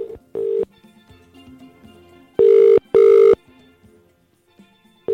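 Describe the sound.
Ringback tone on an outgoing telephone call: short, steady buzzing bursts, the later two close together as a pair, with faint background sounds between them.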